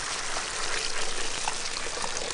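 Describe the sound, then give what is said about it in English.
Water is poured into a kettle before it is hung over a fireplace fire. A faint, steady splashing pour with a soft gurgle runs throughout, with no voices. “quickly built a fire in the fireplace, filled the kettle with water,”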